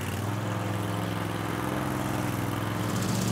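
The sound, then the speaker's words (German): Steady engine drone of a Brielmeier double-blade mower riding on spiked rollers while cutting grass, a continuous mid-pitched mechanical hum with a low rumbling undertone, with no talk. “Mit einem Doppelmesser wird das Gras geschnitten. Die Maschine fährt auf Stachelwalzen und schont den Boden.”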